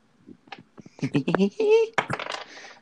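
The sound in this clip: Dice are rolled in a tabletop game, producing a short rattling clatter of several quick bounces, with voices talking over and around it.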